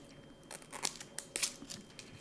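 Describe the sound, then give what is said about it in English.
Plastic packaging crinkles and crackles as someone peels at its several stubborn layers of orange-yellow wrapping, with a few short, sharp bursts of rustling scattered over a faint background. “It says peel here, but the peeling is not working.”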